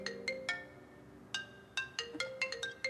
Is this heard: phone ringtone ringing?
yes